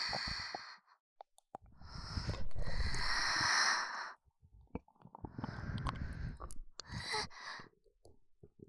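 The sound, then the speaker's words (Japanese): Breath blown softly into an ear, with a few long, airy, hissing exhales separated by quiet pauses. The sound is faint and close, with no talk. “耳に息がかかってくすぐったいの。”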